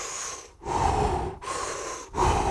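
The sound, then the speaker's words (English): Slow, deep breaths drawn in and pushed out during a guided breathing exercise, a few long, loud, airy hisses separated by short pauses, with no talking. “Just take a big breath, kind of just sit into it, and you want to take 20 big breaths”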